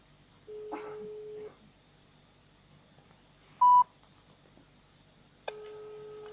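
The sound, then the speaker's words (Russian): Telephone dialing and ringing tones during a phone call: a steady tone, then a short, loud beep, followed by another sustained tone that runs to the end over faint background hiss. “Ну, пошло звонить.”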